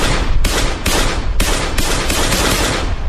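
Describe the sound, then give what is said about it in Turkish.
Gunfire as a full magazine is emptied at a jewellery shop front on a Diyarbakır street at 3 a.m.: many loud, sharp shots crack in quick, uneven succession and blur into a continuous, echoing barrage. “Bir anda silahına davrandı. Bir şarjör boşaltıp kaçtı.”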